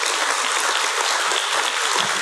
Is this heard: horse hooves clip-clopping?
no